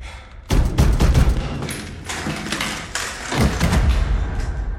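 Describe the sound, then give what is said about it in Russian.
A door being shut in a hallway leading to a stairway, heard as heavy thuds and booming impacts within loud, dense, rumbling noise that continues for several seconds. “Закрывает дверь.”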